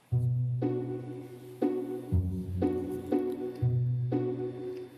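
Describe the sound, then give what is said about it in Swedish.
Soft background music, a gentle sequence of sustained tonal chords that change about every second, quiet and without voices. “så har jag en slags bakgrundsmusik och den låter så här.”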